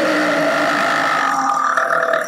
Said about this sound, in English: So it's basically that every time you burp.